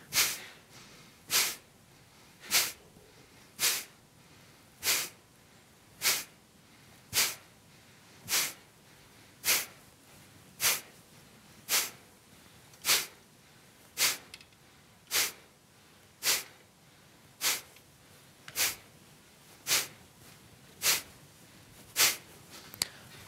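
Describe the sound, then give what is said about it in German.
Kapalabhati yoga breathing: a long, evenly spaced series of short, forceful nasal exhalations, sharp and loud, repeating roughly once per second with quiet passive inhalations between, with no talking. “Und beginne jetzt mit der ersten Runde Kapalabhati. Einatmen Bauch hinaus und beginne.”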